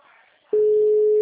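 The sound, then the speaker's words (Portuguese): Telephone line tone while a call is placed: a loud, steady single-pitched tone starts abruptly after a moment of faint talk and holds unbroken to the end. “Tô ligando pra ele, da Una.”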